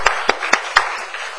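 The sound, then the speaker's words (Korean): Audience members at a talk clap in encouragement for a teacher who has stood up, with four sharp, evenly spaced hand claps followed by a few fainter ones. “예, 우리 격려의 박수 한번 부탁합니다.”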